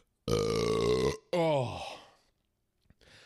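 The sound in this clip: A long, loud, deep belch after drinking grape soda, followed by a shorter vocal sound that falls in pitch, then brief quiet.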